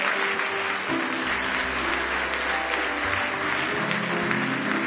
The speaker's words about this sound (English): Come on, give him a clap,